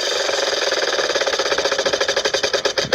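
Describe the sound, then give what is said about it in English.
A big prize wheel of numbers spins with a steady clattering of many rapid, even ticks. The clicks grow more distinct and separated toward the end, like a pointer ratcheting over pegs. “let's spin the big wheel of numbers and see what number comes up next.”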